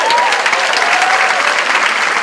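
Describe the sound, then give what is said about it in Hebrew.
Loud, dense audience applause at a gathering, with continuous clapping from many hands that stays even and sustained from start to finish. “כפיים? יותר כפיים”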